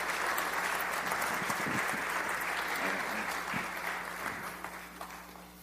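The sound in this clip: An audience applauds to welcome a speaker to the stage, a dense, even wash of clapping that holds steady throughout and thins slightly near the end, with a low hum underneath.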